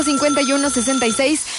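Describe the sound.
A telephone ringing on a radio call-in contest line, a loud, rapid electronic warble of stepped tones repeating steadily throughout.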